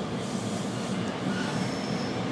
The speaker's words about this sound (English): We're on the subway now.